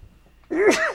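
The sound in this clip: A single sharp human sneeze erupts after a near-silent moment, a loud breathy burst with a brief tonal swell that trails off quickly.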